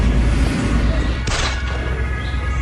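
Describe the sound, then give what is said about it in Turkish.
Gunfire recorded from inside a car during an attack: a sharp, bright burst of shots stands out briefly against continuous loud rumbling noise. “Saldırı anında arabasında olan birinin çektiği görüntülerde silah sesleri duyuluyor.”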